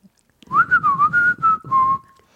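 A person whistles a wavering melodic phrase of several quick notes that settles into longer held notes and ends on a sustained tone that fades out.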